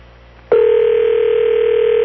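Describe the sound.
A telephone tone on an outgoing call starts abruptly after a quiet half second, then holds at one steady pitch, loud and unbroken to the end.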